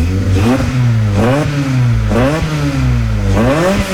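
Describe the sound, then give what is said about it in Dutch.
A car engine of about 200 horsepower revving hard as the throttle is blipped, its loud growl rising in pitch in repeated surges and dropping back between them. “Ik ga er ook even gas geven, hè? Een beetje gas geven.”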